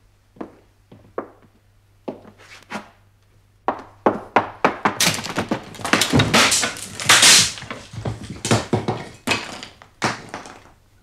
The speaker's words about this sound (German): Die Tür ist verschlossen, Sir. Na, brechen Sie das Ding da auf, nur nicht so schüchtern, Mensch.